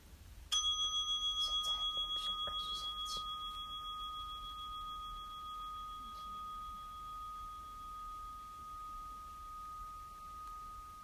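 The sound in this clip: A single meditation bell struck once to start a session, a clear ringing tone with a gentle pulsing shimmer that fades slowly over about ten seconds.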